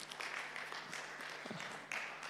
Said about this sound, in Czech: mohli byste jim zatleskat taky